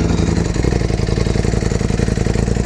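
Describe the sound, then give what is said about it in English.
A Ducati Panigale motorcycle engine gives a loud, steady throbbing rumble with rapid, even pulses throughout and no voices. “It's crazy sounding. Ooh. Ducati.”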